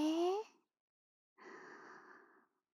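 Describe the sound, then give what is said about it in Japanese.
A deep breath drawn in during a guided breathing exercise: a soft, breathy inhale lasting about a second, following a short voiced sound and a pause of silence. “深呼吸、深呼吸。吸って、”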